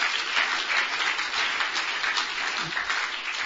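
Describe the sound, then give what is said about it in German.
Congregation applause during a church service: a sustained, moderately loud patter of many hands clapping, with a slightly uneven texture as individual claps rise and fall across the few seconds. “Yeah, you better give God a praise. Ihr gebt Gott lieber einen Applaus dafür.”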